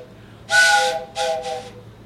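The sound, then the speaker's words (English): Train whistle blown, a personally designed novelty train whistle giving steady breathy tones over hiss: one long loud blast followed by two shorter blasts close together, with nothing else in between. “That's a train whistle? It's a train whistle. What does it sound like? Blow it.”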